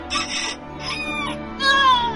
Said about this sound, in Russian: В это время пропел петух.